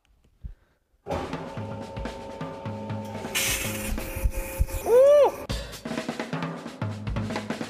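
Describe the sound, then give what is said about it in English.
A water jet cutter cuts a small datum board, a steady broad hiss over mechanical hum that starts abruptly after a short quiet lead-in and continues to the end, with a brief loud whine partway through. “hopefully the first thing we cut is this little datum board. To start cutting, press start.”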